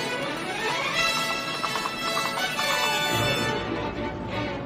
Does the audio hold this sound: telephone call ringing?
no

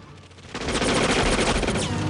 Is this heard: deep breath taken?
no

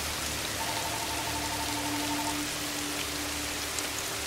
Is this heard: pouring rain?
yes

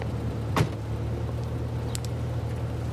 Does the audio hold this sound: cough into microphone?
no

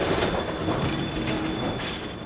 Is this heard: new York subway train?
yes

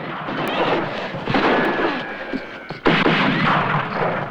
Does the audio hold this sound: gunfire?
yes

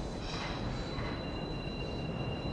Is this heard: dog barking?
no

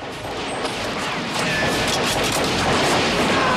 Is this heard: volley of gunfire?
yes

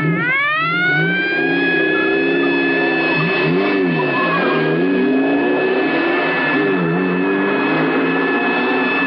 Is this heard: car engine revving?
yes

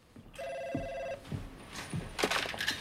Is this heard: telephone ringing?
yes

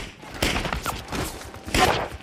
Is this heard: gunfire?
yes

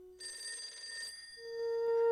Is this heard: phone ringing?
yes

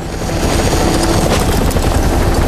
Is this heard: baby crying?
no

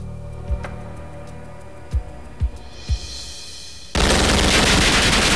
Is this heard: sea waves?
no

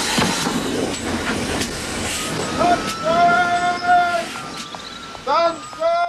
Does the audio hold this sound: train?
yes

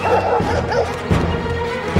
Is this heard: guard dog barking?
yes

